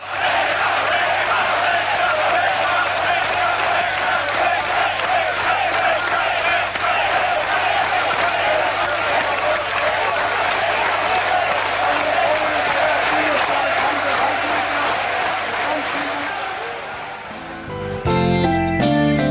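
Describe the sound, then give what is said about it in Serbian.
A huge crowd of about 200,000 mourners applauds and chants along a funeral procession route in Belgrade in the later 20th century. The dense roar of clapping and voices is loud and unbroken, and its character shifts briefly near the end. “200.000 ljudi u špaliru od kapele do mesta sahrane aplauzom i skandiranjem je pratilo pogrebnu povorku. Evo jednog dela tonskog snimka.”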